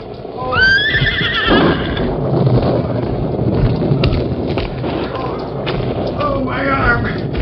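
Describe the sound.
Silver, the Lone Ranger's horse, whinnies loudly with a high, quavering neigh at the start. A steady rumbling noise follows, broken by a few dull thumps.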